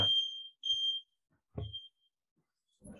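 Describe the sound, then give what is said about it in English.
An alarm goes off in a room with three sharp, high-pitched electronic beeps: the first two are long and close together, and the third is shorter and comes after a brief pause. “sounds like your Elvis Costello meter is going off. I know, it's the Elvis Costello alarm.”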